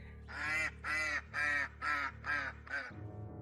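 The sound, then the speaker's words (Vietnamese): Six loud, nasal honking cries in quick, even succession from a white duck whose throat has been cut, standing bloodied on the rim of a well. Each call is harsh and strongly tonal, with a low hum beneath. “con vịt cứ đứng trên thành giếng rồi hướng cái mỏ vẫn còn dây máu về phía bà Hoài đang đứng chỉ đạo mọi người kêu lên những tiếng lạ lùng.”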